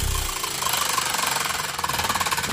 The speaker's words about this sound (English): I've got the wheel here. I'm going to spin it.